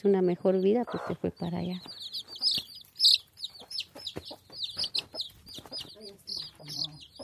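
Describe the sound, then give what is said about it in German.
Chickens and chicks on dusty ground: many rapid, high-pitched peeps from the chicks mix with lower clucking from the hens in an uneven, busy pattern. “Auf dem staubigen Boden picken 10 gelbe Küken zwischen den Beinen der Besucherinnen nach Krümeln.”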